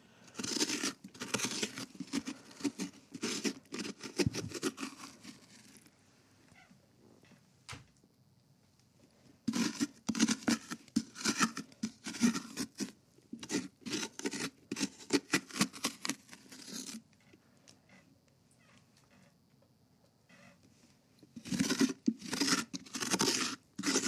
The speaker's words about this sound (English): Phase one is always cutting the top off, doing the top hole, and then phase two is the scoop. So we're doing the scoop now.